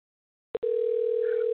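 A telephone line tone sounds while a call is being placed. A short beep is followed by a steady, unbroken tone held at one pitch, heard alone without voices.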